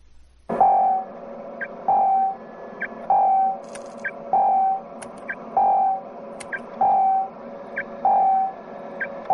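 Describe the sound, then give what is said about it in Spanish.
A warning tone from a space pod's radar in 2001: A Space Odyssey, sounding as a steady series of mid-pitched electronic beeps repeating about every second, with faint higher blips between them over a low hum. “Un tono de aviso informa a Dave de que el radar de la cápsula ha localizado a Frank.”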